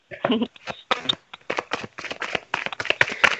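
Tarot cards being shuffled and drawn from a deck outdoors, producing many short, crisp flicks and snaps in an irregular rhythm, some sharper than others.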